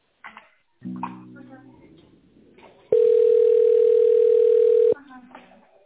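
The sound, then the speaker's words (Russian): A telephone ringback tone plays while a call is transferred: one steady, loud, mid-pitched tone lasting about two seconds, preceded by a short low buzz and faint voice sounds. “Да, минуточку, сейчас соединю с Ольгой.”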